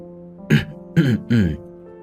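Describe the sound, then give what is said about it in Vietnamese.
An elder clears his throat in three rough, gravelly bursts spaced evenly about half a second apart, each short and fairly loud against a quiet background. “Mạc trưởng lão nhìn Lam Anh đầy phấn khích, vội vàng hắng giọng.”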